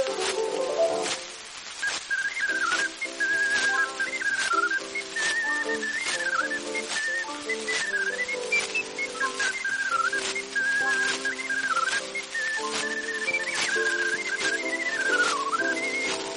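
A small holed flute or whistle is blown, a high, bright, lively melody with quick ornaments over a steady instrumental accompaniment and regular light percussive beats.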